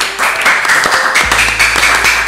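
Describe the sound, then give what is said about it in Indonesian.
Applause from many hands clapping, a dense, steady patter that runs through the whole short clip at an even, fairly loud level. “Tepuk tangan dong.”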